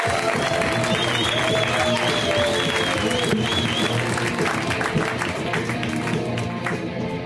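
Audience applause as a guest comedian is welcomed to the stage, dense and steady clapping that stays loud and even throughout.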